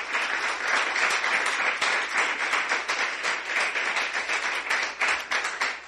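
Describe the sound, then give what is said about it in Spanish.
A church audience applauds during a sermon, with many hands clapping in a dense, steady wash that stays loud throughout. “Denle un aplauso al Señor.”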